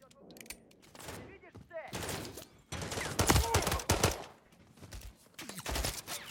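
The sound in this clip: Machine-gun fire rattles through the video game Call of Duty: Modern Warfare 3 in dense, rapid bursts. Loud clusters of shots are broken by short pauses, with a heavy, sustained barrage in the middle.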